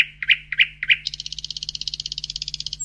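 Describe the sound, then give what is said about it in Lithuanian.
Nightingale song: three separate bright chirps, then a rapid, even trill of many high notes, heard alone over a faint low hum. “Kartą ant namelio stogo nutupė lakštutė.”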